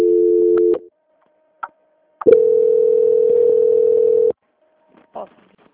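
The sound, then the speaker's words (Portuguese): Telephone line tones during a call transfer: a short steady tone, a few faint clicks, then a steady tone held for about two seconds, followed by faint blips. “Só um momentinho, fui transferir e voltou pra mim. Só um minutinho, tá bom? Tá bom. Transferência.”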